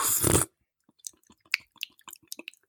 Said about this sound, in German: Ja, Pudding, was für einer? Warte, ich esse mal einen.